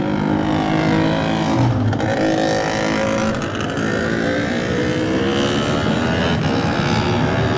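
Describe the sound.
A racing motorcycle pulls away from the pit lane at a road race: a loud, continuous engine roar holds steady and strong throughout, with the throttle working hard and no break in the noise.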